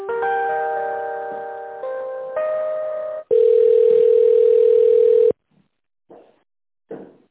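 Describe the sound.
A telephone line plays tones while a call is being connected. A stepped run of layered electronic tones is followed by one long, loud, steady ringing tone of about two seconds, then near silence with a few brief, faint sounds.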